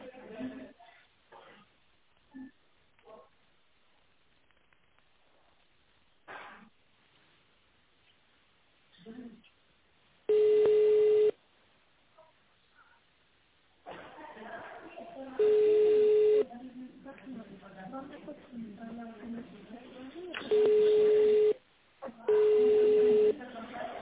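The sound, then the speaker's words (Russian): Touch-tone dialing of an extension number on a call to a company's automated phone line: four short, steady beeping tone bursts spaced apart, with line noise and bits of speech between them. “Наберите в тональном режиме номер абонента или дождитесь ответа секретаря.”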